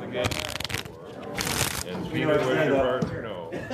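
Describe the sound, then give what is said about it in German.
Playing cards are shuffled poker-style at a Schafkopf game among a Bavarian costume club in North America, with crisp riffling and crinkling bursts under people talking. “Die amerikanischen Trachtler bewahren auch die Tradition des Schafkopfspielens, auch wenn die Karten in Pokermanier gemischt werden.”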